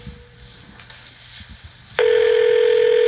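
A telephone dial tone while placing a call, a loud steady tone that starts abruptly about two-thirds of the way in after a stretch of faint low rustling.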